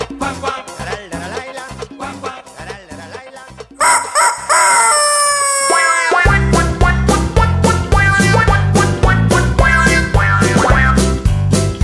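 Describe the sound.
A rooster crows inside a children's farm song, its falling calls rising above bright, loud music with a steady beat and no singing.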